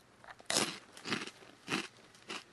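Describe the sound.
Crunching of arare rice crackers being bitten and chewed: four main crisp, crackly crunches spaced about half a second apart, fairly quiet, with no talk.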